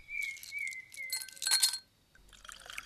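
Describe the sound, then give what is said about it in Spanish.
Glass clinks against a whisky bottle as liquor is poured for a man drinking alone, with bright ringing chimes, a cluster of sharp clinks near the middle, then a quiet trickle at the end. “Pedro Montenegro vaciaba su segunda botella de whisky.”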